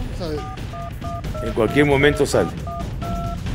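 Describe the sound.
Telephone keypad tones as a call is dialed: several short, evenly pitched beeps in a steady sequence, paused while a voice speaks briefly in the middle, then resuming.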